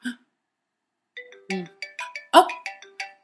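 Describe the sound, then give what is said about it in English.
Mobile phone ringing with a bright electronic ringtone, a rapid run of chiming melodic notes that begins after a brief vocal sound and a second of silence. “I think that's my phone.”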